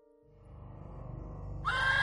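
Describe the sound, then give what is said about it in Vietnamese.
Panicked horses rear and neigh wildly. A low, rough snorting neigh builds steadily in loudness, then breaks into a shrill, high whinny near the end. “yêu quái xuất hiện, khiến cho mấy con ngựa lồng lên hí loạn, hất văng người xuống dưới đất mà tháo chạy đi.”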